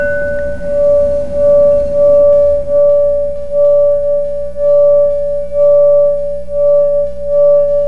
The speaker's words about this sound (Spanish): ¿Y podemos ver cómo suena el cuenco? Claro que sí. Este va a emanar vibraciones. Este es un cuenco de 432 Hz.